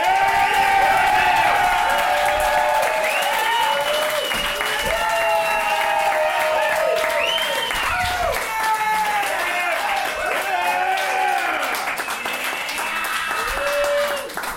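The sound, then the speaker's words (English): Loud, sustained applause and clapping from a comedy audience greeting a guest onstage, a dense crackling roar that holds steady throughout while a man talks over it. “Shut up, you can't clap again.”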